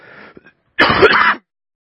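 A person clears their throat, first with a faint, short rasp, then with one loud, harsh, gravelly burst lasting about half a second, heard alone.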